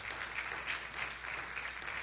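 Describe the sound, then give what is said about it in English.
Audience applause at a church service, steady continuous clapping that holds at an even, moderately loud level for about two seconds with no talk over it. “And women, you can applaud that if you believe it.”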